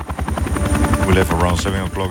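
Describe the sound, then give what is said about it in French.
A helicopter in flight on an early-morning trip in South America, its rotor making a loud, steady, rapid chopping pulse over a droning engine whine throughout. “On est parti à 7h du matin en hélicoptère.”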